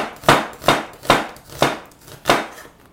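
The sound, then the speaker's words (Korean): A knife slices an onion into thin strips: five crisp, evenly spaced chopping strokes, each a sharp cutting thud with a brief tail. “양파를 한번 썰어 볼까요? 양파는 채 썰면 돼요.”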